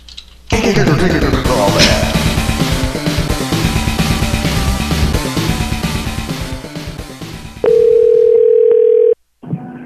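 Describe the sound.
A telephone dial tone sounds after the caller hangs up: a steady, loud, continuous tone that cuts in abruptly after a stretch of music and stops after about a second and a half.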